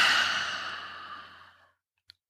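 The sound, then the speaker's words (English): A long exhale through the mouth during a breathing exercise: a soft, breathy whoosh that starts strong and gradually tapers off, followed by a brief click. “Inhaling three quick sniffs and exhale with your mouth.”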